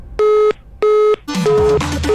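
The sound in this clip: Two steady, identical beeps of a telephone hang-up tone sound as a call ends, followed by a burst of mixed, noisy sound.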